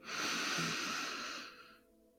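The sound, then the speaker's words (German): A deep breath taken during a guided breathing exercise, heard as one long, soft, airy rush that holds steady and then fades away, alone with no talk. “Und jetzt nehmen wir einen letzten gemeinsamen Atemzug. Atme noch einmal tief ein”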